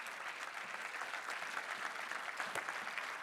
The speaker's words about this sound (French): Oui, on peut acclamer le Seigneur.